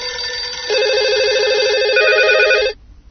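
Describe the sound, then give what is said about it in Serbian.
A telephone rings for an incoming call, a loud, steady warbling electronic trill that holds for about two seconds before cutting off abruptly, leaving faint background noise. “Telefonom ćemo se poslužiti kako bi nam se u ovom razgovoru o bacanju hrane pridružila Katarina Žigić iz Banke hrane Srbije.”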